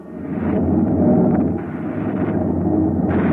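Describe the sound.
A weapon firing in a number 3 pattern gives a loud, continuous low roar that rumbles on for several seconds without distinct separate shots.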